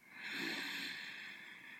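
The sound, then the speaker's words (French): A person inhales deeply during a guided relaxation exercise, drawing one faint, airy breath that swells early and then holds steadily for nearly two seconds. “À nouveau, inspirez profondément.”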